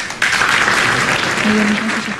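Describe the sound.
Applause for Chilean President Sebastián Piñera and the Interior Minister at a decree-signing ceremony. Dense, steady clapping begins abruptly just after the start and continues to the end, with a brief tone heard late on.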